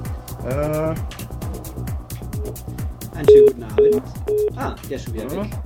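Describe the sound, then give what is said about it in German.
An incoming telephone call connects with three short, clear beeps in quick succession, heard over continuous talking. “Hey, wir haben einen Anrufer, ich glaub's nicht. Dann schauen wir doch mal, ob wir den hier nehmen.”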